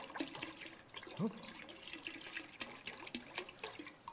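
Water being poured in, a short gurgling splash with a brief rising tone near the middle, over a steady wash of trickling liquid, moderately quiet, with no talk.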